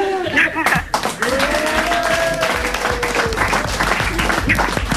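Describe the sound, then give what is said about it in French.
Applause from a comedy show audience giving a standing ovation to a returning spectator, a dense, loud wash of clapping with voices calling and cheering over it throughout. “Qui est partie faire caca, elle revient, on va lui faire une standing ovation.”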